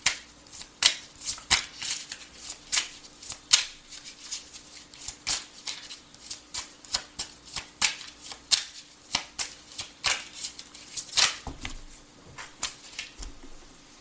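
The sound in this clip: Tarot cards are shuffled in many quick, papery riffles and flicks that repeat in a steady rhythm throughout, fairly faint and alone without talk.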